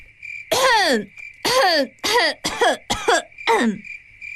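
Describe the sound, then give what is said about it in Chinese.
Loud, deliberate coughs from a maid in a garden, five or six sharp, voiced bursts in quick succession with a falling, throaty tone, over a steady high insect chirr. “红娘往西厢方向看了一眼，提高嗓子咳了起来”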